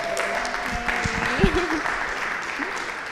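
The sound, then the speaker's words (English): Applause from a church audience welcomes a speaker to the front, a moderate wash of clapping with voices talking over it. “I want you to put your hands together, and I want you to welcome the first person who's going to be sharing their testimonies.”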